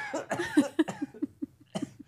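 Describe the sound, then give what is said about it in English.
A person coughs while laughing, giving a rapid run of many short, choppy bursts that break off briefly and then return in a final cluster. “I can't laugh and not cough.”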